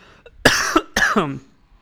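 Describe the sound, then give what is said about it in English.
Two short, harsh coughs from a person with a bad cough. Each burst is loud and rasping and trails off, separated by a brief pause, with near silence before and after. “excuse my voice right now, I got a cough.”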